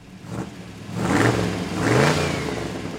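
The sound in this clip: A Ford Model T car engine revving, a brief soft rev at the start followed by two louder throaty swells, the mid-pitched motor rumbling steadily between bursts with no talk.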